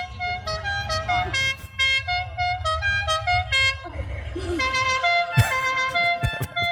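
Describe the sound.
A moped horn honks in a series of bright, buzzy tones that come in short, uneven bursts and change pitch. Voices and some sharp clattering noises are mixed in toward the end.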